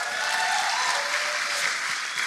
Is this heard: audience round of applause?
yes

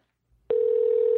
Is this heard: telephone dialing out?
yes

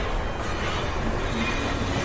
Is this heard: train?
yes

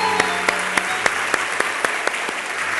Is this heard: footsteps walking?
no

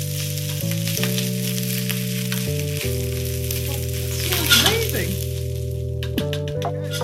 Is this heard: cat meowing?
no

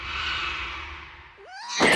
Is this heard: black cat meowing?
yes

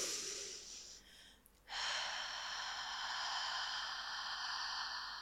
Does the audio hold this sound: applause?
no

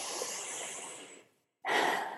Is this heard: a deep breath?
yes

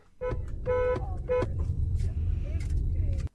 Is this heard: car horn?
yes

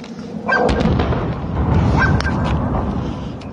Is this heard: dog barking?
yes

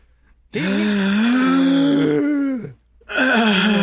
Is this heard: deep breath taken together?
yes

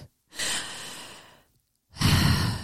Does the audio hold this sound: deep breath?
yes

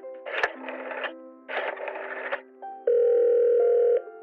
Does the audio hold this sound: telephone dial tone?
yes

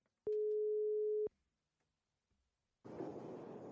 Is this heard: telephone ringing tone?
yes

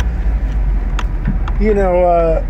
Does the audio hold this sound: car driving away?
yes

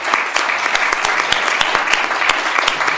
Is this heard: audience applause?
yes

